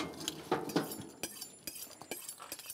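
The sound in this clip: A plate being moved on a kitchen counter during cooking, giving a few faint clinks and light knocks of crockery, spaced unevenly.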